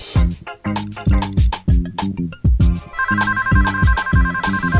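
A studio telephone rings with an electronic, melodic ringtone over a rhythmic, bass-heavy musical beat. From about midway a sustained, steady ringing tone holds through to the end, fairly loud.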